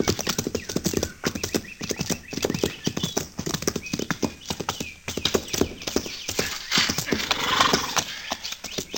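Horses ridden near a fort: a busy, steady clatter of many hooves clip-clopping at a brisk, uneven rhythm, with a horse's whinny mixed in.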